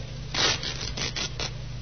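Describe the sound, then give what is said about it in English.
Fabric tearing as the lining of a raincoat is ripped: a few short rasping bursts in quick succession, fairly faint, with no voices. “Yeah, try ripping the lining, Sergeant.”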